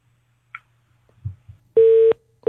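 A phone line's disconnection tone after a call cuts off: one steady, mid-pitched beep lasting about a third of a second, then the start of a second beep. A few faint clicks and thumps come before it.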